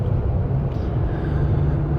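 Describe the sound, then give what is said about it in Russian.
A car driving on the road from Novosibirsk toward Omsk gives off a constant, loud low rumble of engine and road noise with no distinct separate events. “Мы сейчас едем в сторону Омска из Новосибирска.”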